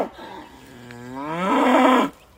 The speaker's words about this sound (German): Eine abgemagerte Kuh. Sie ist aus der Weide ausgebrochen und irrt auf einem Feldweg umher. Wieder und wieder reckt sie den Kopf schreiend gen Himmel.